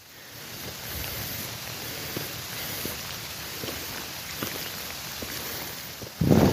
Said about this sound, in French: Et voilà, ça fait 30 minutes que je marche et je suis déjà sous la pluie tropicale.